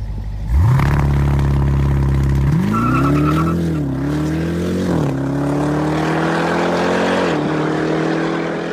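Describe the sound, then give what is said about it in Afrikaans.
Engine of the fastest, most powerful production SUV, a 2.5-ton vehicle, revving hard: a loud roar sweeps up in pitch at the start, then climbs again in several surges with brief dips as it accelerates. “Kyk, as jy na hierdie klanke luister, dan is ek seker jy sal weet dat hierdie is die vinnigste en kragtigste produksie sportnuts wat al ter wêreld gebou is. Luister net gou hierda.”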